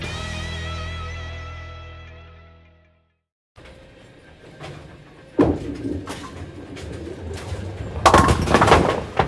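A bowling ball rolls with a low rumble and then crashes loudly into the pins for a spare, the clatter building to its loudest near the end.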